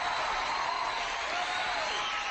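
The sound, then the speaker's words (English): Crowd applause rises as a dense, continuous patter of many hands and keeps a steady level from start to finish. “Wait, you need some applause, don't you?”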